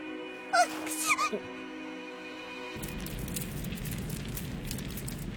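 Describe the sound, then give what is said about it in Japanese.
A campfire burns with a steady, fizzing crackle and hiss full of small snaps. A few brief, high vocal sounds are heard before the crackling takes over. “シオン王子が火起こしができて助かりましたわ。”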